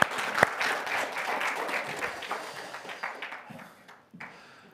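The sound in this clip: Audience applause welcoming a speaker up to the microphone at a morning gathering: brisk, dense clapping with a sharp louder clap near the start, holding steady before thinning out and fading toward the end.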